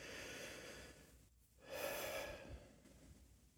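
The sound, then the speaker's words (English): A deep, cleansing breath during a guided relaxation exercise: one soft, airy breath comes after a brief near-silent pause, faint overall and alone without talk. “So we're going to start by taking three nice, deep, cleansing breaths.”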